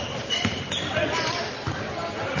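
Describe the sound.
A basketball bounces on the court during a game, its dull repeated thumps running under steady play-by-play talk.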